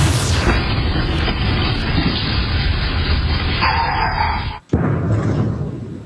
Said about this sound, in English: That was a massive sonic boom heard across the northeastern U.S. this afternoon. Home security videos captured the blast that sent birds flying and pets running for cover. It was caused by a meteor exploding as it entered